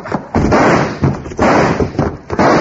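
Gunshots in a radio drama shootout: three loud, sharp bangs spaced about a second apart, each followed by a noisy, rumbling decay.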